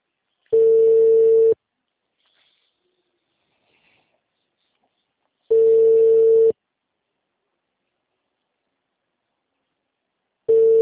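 Telephone ringback tone on a call: steady, mid-pitched tone bursts about a second long at even intervals, with silence between. Three bursts are heard and the last is cut short. No one speaks.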